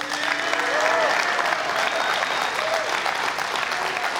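A church audience at Life Church applauds a guest pastor with loud, sustained clapping from many hands, a dense, even wash that holds steady for about four seconds.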